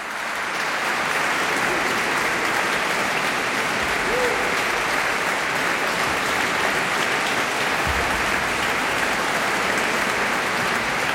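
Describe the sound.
Dense, sustained applause from a festival audience in Vézelay after an a cappella choir concert, a steady wash of many clapping hands holding at an even level throughout.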